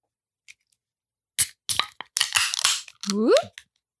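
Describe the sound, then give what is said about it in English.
Beer cans cracking open: a few sharp metallic pops, each followed by a short fizzing hiss, then a brief rising vocal exclamation at the end. “Let's get that beer. I brought the beer. Mm-hmm. Did you bring the cracks? Now let's crack.”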